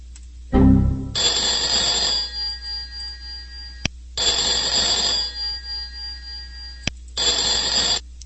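A telephone rings with an incoming call. A brief low thump comes first, then three long electronic ringing bursts separated by short gaps. The last burst is cut short.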